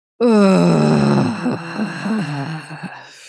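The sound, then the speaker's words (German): A deep, voiced exhale with a drawn-out groan, done as a breathing exercise: one sustained moan of about three seconds that starts loud, sinks lower in pitch and fades away at the end. “Und jetzt ausatmen 6 Sekunden mit Stöhnen.”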